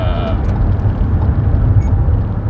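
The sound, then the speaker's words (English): Car interior noise while driving, a steady, loud low rumble of engine and road that continues throughout, with a voice talking over it. “Sorry, I am driving.”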